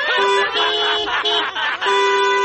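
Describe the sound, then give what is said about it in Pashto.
A car horn honks on a road, a loud, sustained, steady tone broken by a few brief gaps over about two and a half seconds. “اوهو تا دا هارن خو بند که بی بی؟ چی دا هارن بند کم؟”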